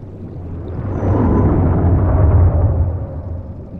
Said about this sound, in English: I mean, we have the meteor sound.